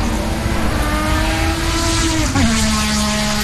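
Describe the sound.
Race car engines at a motor racing circuit, a loud, sustained, high engine whine that holds a steady pitch, then briefly dips late on before carrying on.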